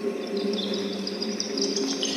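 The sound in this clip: Birds chirp around midday, a steady stream of faint high tweets over a constant low drone, with no talk.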